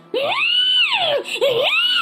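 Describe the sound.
A child screams and wails in a tantrum: two loud, long, high-pitched cries, each arching up and falling away, with a brief catch between them.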